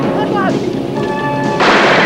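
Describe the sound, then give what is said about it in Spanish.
In a film scene, guards fire guns through a hole in pipes on a freight car. A voice is heard first, then a sudden loud blast bursts out near the end and lingers as a harsh, noisy roar. “Los guardias disparan por el agujero de las tuberías.”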